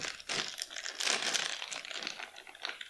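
A plastic chip bag crinkles as someone handles it while trying to open it. Irregular crackling runs continuously throughout, fairly faint, in uneven bursts.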